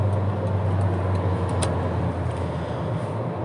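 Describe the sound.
Steady, low engine and road rumble inside a car being driven on a trip from Jakarta to Bandung, a constant droning hum with a faint hiss on top and no clear changes.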